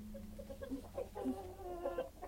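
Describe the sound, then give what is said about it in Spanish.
Hens clucking on a family farm, a string of short, bright clucks and squawks at varying pitch over a low, steady background hum. “Gallinas pícaras, comen y hacen bulla, pero huevos no hay ni para remedio.”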